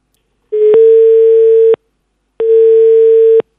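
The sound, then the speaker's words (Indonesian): Ringback tone of an outgoing telephone call: two loud, steady, level-pitched beeps about a second long, separated by a brief silence, with no voices. “di podcast ini gue akan nelpon cici gue. Ini surprise.”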